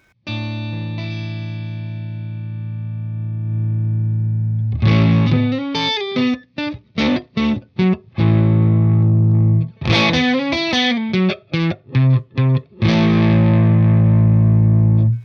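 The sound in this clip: Electric guitar played through a Syrup effects pedal in a tone demo: a long held distorted chord rings out, then a choppy run of picked notes and short chords gives way to another sustained chord, loud and without talk.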